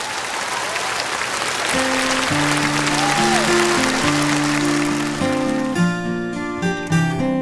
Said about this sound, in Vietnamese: một tràng vỗ tay thật là lớn ạ